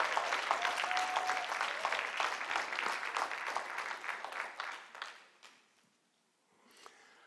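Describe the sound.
A church audience applauds as Pastor Carlos comes up to the stage, a dense burst of clapping that holds for several seconds, then thins out and fades to near silence.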